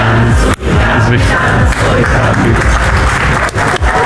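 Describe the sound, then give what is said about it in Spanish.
A studio audience at a Costa Rican television quiz show chanting in unison to urge a contestant toward the right answer. A loud, dense wall of crowd voices and applause with a few brief dips. “En su primera pregunta dudó, pero al ritmo del cántico, el público le confirmó que tenía la respuesta correcta.”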